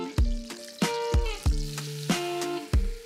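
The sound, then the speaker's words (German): Butter and flour sizzle in a pan for a béchamel roux, a soft frying hiss broken by six sharp metallic knocks of stirring against the pan, each ringing briefly. “Das heißt, wir haben jetzt hier Butter geschmolzen. Und dazu kommt jetzt die gleiche Menge an Mehl dazu.”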